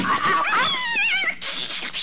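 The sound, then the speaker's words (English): Cat meowing: a drawn-out, wavering cry that bends up and down in pitch, followed by a quieter, noisy stretch. “you cat, you! Don't you dare go in Dr. Gillespie's office. Meow.”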